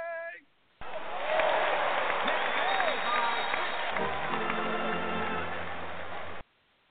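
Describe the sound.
Applause welcoming a guest: a steady wash of clapping starts abruptly, holds at an even level for several seconds, then cuts off sharply.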